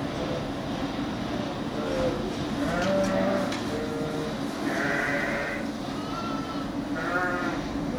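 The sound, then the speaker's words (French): Ewes bleating in a barn while they await lambing: several drawn-out bleats rise over a steady, dense background murmur of the flock, with quieter calls scattered between the louder ones. “il y a plein de brebis, voilà, qui sont en attente de mise bas. Voilà, vous pouvez entendre qu'elles s'expriment.”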